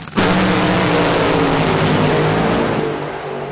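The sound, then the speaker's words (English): A drag racing car roars down ZMAX Dragway at the NHRA Carolina Nationals, a loud, dense, continuous engine blast with a steady droning pitch that eases slightly toward the end. “There's no speed limit in drag racing, so these road rockets blister ZMAX Dragway at 330 miles per hour.”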